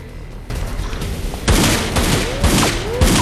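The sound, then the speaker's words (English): Gunfire echoes in a dingy underground tunnel. After a quieter opening, a series of loud, sharp shots and bursts follow one another closely. “And when he makes it into the tunnel, Zepp opens fire.”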